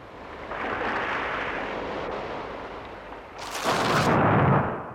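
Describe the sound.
Thunder rolls over a storm at sea: a broad, sustained rumble with a surf-like roar, then a louder, sharper crash bursts in late before easing off.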